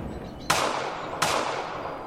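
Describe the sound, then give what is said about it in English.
A powerful rifle fires twice: two sharp, explosive cracks, each followed by a long, fading tail, spaced well apart over a low background hiss. No voices are heard. “He damn near took my head off. That's a powerful rifle.”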